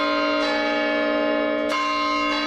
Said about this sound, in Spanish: Bueno, así suena el campanario de Pachuca.